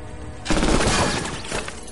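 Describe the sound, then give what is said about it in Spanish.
Gunfire in a 2014 action thriller film scene: after a short quiet lead-in, a sudden loud burst erupts into a dense, rattling barrage. It eases slightly, then surges again near the end. “Asoma la cabeza y alguien dispara.”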